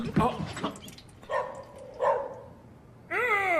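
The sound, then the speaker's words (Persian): A dog barks and yelps in a few short bursts while jumping on a man, its sharp cries spaced apart, followed by a drawn-out wavering whine, with a voice in the mix. “این سگه داره میپره رو سرم. از رو برو کنار سگه.”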